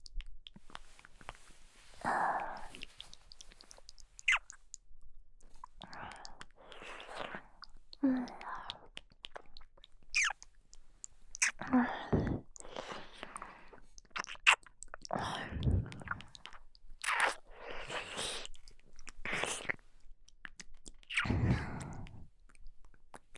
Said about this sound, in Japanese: こうしてお耳などを舐めて興奮していただきます。